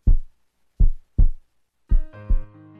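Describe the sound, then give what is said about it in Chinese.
A heartbeat sounds as five deep, low thumps: one single beat, then two closely spaced pairs. A soft, sustained tone enters with the last pair and lingers underneath. “这是心跳的声音。”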